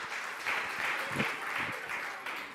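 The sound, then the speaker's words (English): Audience applause greeting a guest speaker coming out on stage at a morning gathering, a steady, fairly faint wash of clapping throughout. “Why don't you come out? Let's give him a hand and welcome him.”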